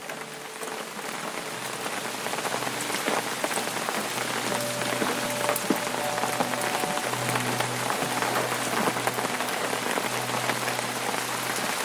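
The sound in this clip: Steady rain falls in a dense, unbroken patter that stays even throughout, with a faint low hum beneath it.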